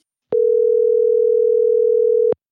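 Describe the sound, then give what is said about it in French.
A telephone tone sounds while a call is being placed: one steady, unwavering mid-pitched hum lasting about two seconds, framed by a soft click as it starts and another as it cuts off, with nothing else heard. “On l'appelle dès maintenant.”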